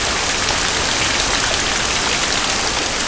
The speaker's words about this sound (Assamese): বৰষুণ দিছে, বৰষুণ লাহে লাহে বেছি হৈহে আহিছে,